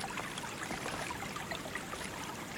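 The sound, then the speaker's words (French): A waterfall tucked among rocks makes a soft, steady rush and patter of falling water, faint and even throughout with no voices. “Puis, vous vous retrouvez face à une chute d'eau, lovée au creux des rochers, qui vous invite à la rejoindre.”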